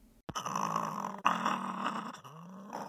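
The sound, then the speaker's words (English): A live-trapped swift fox, a small reddish-brown fox with big ears, growls in two long, raspy, mid-pitched stretches split by a sharp break, its throaty tone wavering. “What you're hearing is a swift fox. They're reddish-brown, a bit smaller than a house cat, with big ears and a long tail. They do their best to sound intimidating when they're live-trapped”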